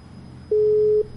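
A telephone busy tone after a call-in line disconnects: a single steady, mid-pitched beep lasting about half a second over a faint low hum.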